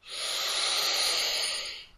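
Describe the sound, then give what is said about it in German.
A single long, steady inhale through the nose during a guided breathing exercise, a soft airy hiss that swells quickly, holds evenly for about two seconds and then tapers off. “Noch einmal durch die Nase einatmen,”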